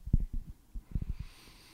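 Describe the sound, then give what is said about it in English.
A deep breath is drawn through the nose right into a microphone: a few low, snuffly puffs and a longer sniffing intake, breathy and fairly faint, with no talk. “No, I was taking a deep breath and I did it nasally. Oh, you did it into the mic”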